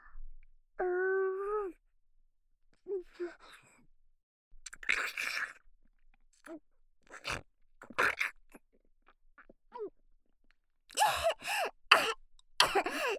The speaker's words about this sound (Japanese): すみません、むせちゃった。